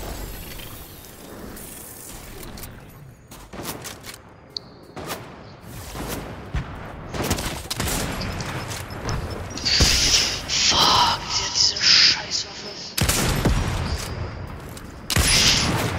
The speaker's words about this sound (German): Jetzt, jetzt, jetzt hat sie noch eine Bombe auf mich abgefeuert.